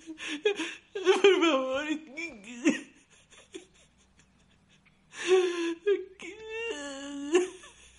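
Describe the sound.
A man sobs inconsolably, with wavering, high whimpering cries and sharp gasps in two bursts separated by a quieter stretch of shaky breathing.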